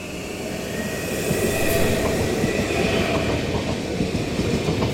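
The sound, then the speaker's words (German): A Twindexx double-deck passenger train bound for Frankfurt main station rolls past, its rumble swelling over the first second, then holding loud and steady with rhythmic wheel clatter and a faint high squeal. “Twindex RT54 fährt an uns vorbei.”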